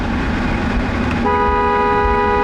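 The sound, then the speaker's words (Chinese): Car horns honk in tribute as vehicles pass a revolutionary martyrs' cemetery. Over steady road rumble, a loud, sustained multi-tone horn blast starts about halfway through and holds to the end. “所有经过东风革命烈士陵园的车辆都会鸣笛，表达对长眠于此的英烈们的深深敬意。”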